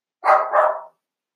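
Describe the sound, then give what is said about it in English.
A pet dog barks, alarmed by what it takes to be serious danger. It gives a short, loud double bark, two quick bursts run together, followed by silence. “Sorry, I just had to stop there for a second because my dog thought that there was some serious danger he needed to take care of.”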